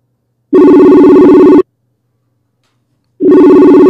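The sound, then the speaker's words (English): A telephone rings while a call is placed to a guest: two loud electronic rings separated by a pause of about one and a half seconds, with the second ring cut off. “we're going to call our first guest here in a minute”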